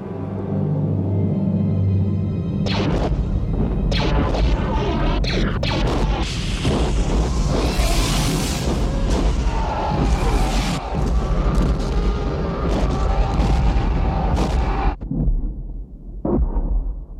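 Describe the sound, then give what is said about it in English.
Bombs exploding on an asteroid surface as bombers strike caves in a film scene, a long barrage of loud booms, crashes and rumbling that runs for about fifteen seconds before cutting off abruptly. “Luke and Yoda, and then cutting back to TIE bombers randomly bombing caves along the surface of the asteroid, hoping to strike the hiding Millennium Falcon.”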